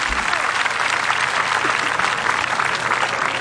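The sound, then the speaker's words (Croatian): Audience applause at an open-air evening music concert in Split, a dense, even wash of many hands clapping that stays loud and steady from start to finish. “Hvala publici na pljesku”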